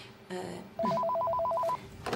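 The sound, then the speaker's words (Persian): A telephone rings in a doctor's office with one electronic trilling burst of rapidly alternating two-pitch tones lasting about a second, with faint other sounds before and after. “خواهش میکنم با وز کردن تلفن مزاحم ما نشید”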